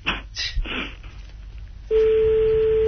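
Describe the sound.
A mobile phone number being dialled: a few short keypad tones, then a steady, continuous line tone that holds loud to the end.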